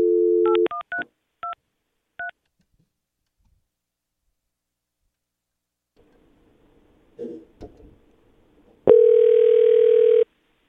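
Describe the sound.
A telephone dial tone cuts off into several quick keypad beeps as someone dials out on a phone line. After a quiet stretch with faint rustling, a loud, steady tone comes in and lasts over a second.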